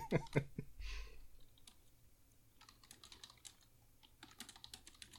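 Typing on a computer keyboard while writing a chat message: faint, irregular bursts of quick clicks and key taps, with no talk.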